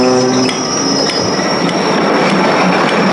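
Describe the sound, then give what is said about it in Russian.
An express train departs from a station with a loud, steady rumble of rolling rail cars. A high, sustained wheel squeal runs over it, with brief harmonic tones near the start that fade out. “Скорый поезд «Восток» отправляется в 10 часов 00 минут.”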